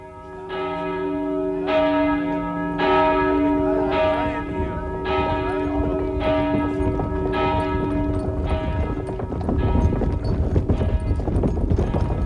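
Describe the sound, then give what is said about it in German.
Church bells ring in steady, evenly spaced strokes as harnessed horses pull away, their clip-clop of hooves running beneath. A village family is departing with wagons, and a broad rumbling noise swells toward the end. “Als die Pferde sich ins Geschirr stemmten, begannen die Glocken zu läuten.”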